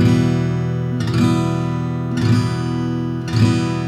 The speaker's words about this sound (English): Okay, so bouncing back and forth between the E minor and the G, try and just do it nice and slowly, so something like this. This is the E minor.